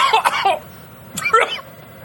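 Harsh coughing and throat clearing after chocolate powder from tiramisu went down the throat: two short, raspy bursts about a second apart, fairly loud, with nothing else heard.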